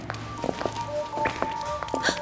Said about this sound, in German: Da war was. Habt ihr das gehört? Hörte sich an, als würde jemand wegrennen.